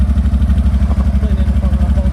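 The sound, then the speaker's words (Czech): A quad bike engine idles steadily with an even, low, rapid putter that stays level throughout, and a voice is briefly heard over it. “bude řídit tuhleto čtyřkolku.”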